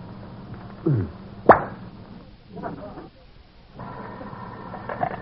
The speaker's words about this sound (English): did you just open a bottle of brandy?